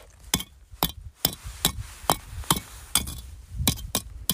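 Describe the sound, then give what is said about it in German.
Lava rocks are knocked together, giving dull, clay-like clacks rather than a stony ring. Many sharp, separate knocks come in a fairly steady rhythm, each short and dry. “Und wenn man die so ein bisschen aneinander haut, finde ich, klingen die fast, als wären die aus Ton. Sehen aus wie Steine, klingen aber so.”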